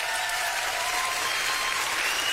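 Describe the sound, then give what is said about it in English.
Applause played as a crowd sound effect in a studio: a dense, steady wash of many hands clapping that holds at an even level throughout, with no voices on top. “Is that the crowd? That's the crowd. It's a busy studio sometimes.”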